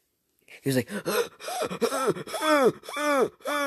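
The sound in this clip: A man's voice imitates someone gasping for breath while sitting on the floor holding his stomach. The sound is a run of strained, voiced gasps and groans with wavering pitch, repeated without pause for a few seconds.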